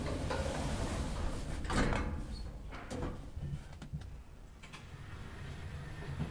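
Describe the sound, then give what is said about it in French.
Elevator doors sliding shut: a few soft knocks and rattles over a steady mechanical hum, with a slightly louder thump near the start. “Fermeture des portes.”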